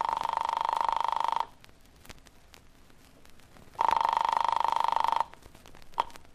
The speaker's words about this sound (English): I flicked the telephone dial to the number in her note.